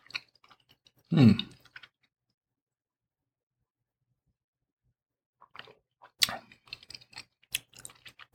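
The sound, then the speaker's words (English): Cheese is chewed during a wine and cheese tasting. One short, louder crunchy burst is followed by quiet, then a few scattered soft mouth clicks and smacks. “So looking forward to another great tasting pairing with this cheese and this wine.”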